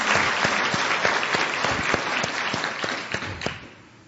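Applause for an organising committee at a weekend gathering: many individual claps blend into a lively patter that holds steady, then thins and dies away near the end.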